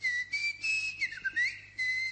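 A long, drawn-out human whistle of sustained high tones, broken by brief gaps, with a dip and rise in pitch partway through, heard alone over a faint low hum.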